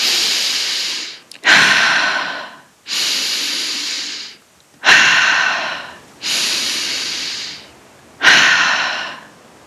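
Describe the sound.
Slow, deep human breathing during a guided relaxation, with drawn-out airy inhales and exhales. About six long breaths follow one another, separated by brief pauses and heard alone without talk.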